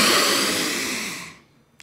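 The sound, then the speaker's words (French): A deep breath drawn in during a diaphragm breathing exercise: a long, loud, airy rush lasting over a second that fades away into quiet, followed by a faint click. “on va faire un petit exercice respiratoire. Allons-y, c'est oui. Okay. Ça, voilà. C'est important pour alors, le diaphragme. Ce que vous faites une grande inspiration.”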